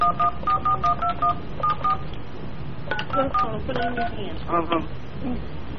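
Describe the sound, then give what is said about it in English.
Touch-tone keypad dialing on a prank phone call: a quick run of beeping tones, a short gap, then another run at shifting pitches, all over a murmur of background talk. “Please enter the telephone number you wish to dial.”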